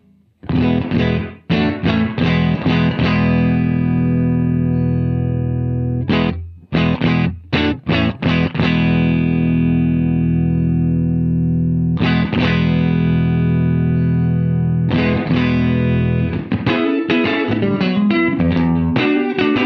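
Studio-room reverb effect applied to an instrument, with settings varied as it plays: loud, ringing chord strikes and bursts of quick repeated notes, sustained tails between them, and no voices.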